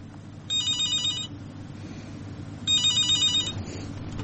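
A telephone rings for an incoming call: two bright, rapidly trilling electronic ring bursts, each just under a second, separated by a pause, over a low steady hum.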